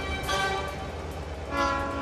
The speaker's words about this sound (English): A train approaches on a nearby track.